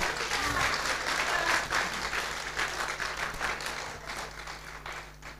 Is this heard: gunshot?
no